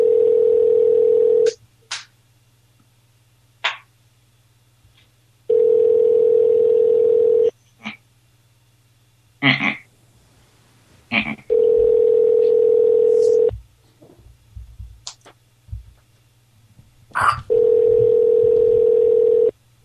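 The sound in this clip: Telephone dial tone and keypad button tones: a loud, steady dial tone recurs in four stretches, and short beeps and clicks from the buttons fill the gaps between them.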